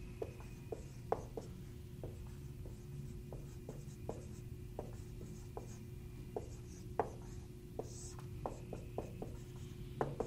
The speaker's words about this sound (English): Let me get over here and write it so you can see me.